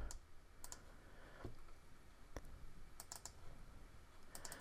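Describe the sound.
Faint computer mouse clicks come as several short, crisp taps scattered across a quiet background, some landing in quick pairs or triplets.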